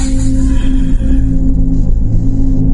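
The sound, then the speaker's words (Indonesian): A motorcycle engine fires up and speeds off, heard as a loud, steady, throaty rumble with a constant low drone and no clear breaks throughout. “Buru-buru aku menyalakan motorku dan langsung tancap gas pulang ke rumah.”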